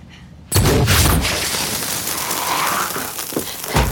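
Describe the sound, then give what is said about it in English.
Gunfire in an action film scene: a sudden loud, harsh burst opens into sustained roaring noise with a few sharper bangs near the end. No one speaks. “He's actually commanding his gun at this point.”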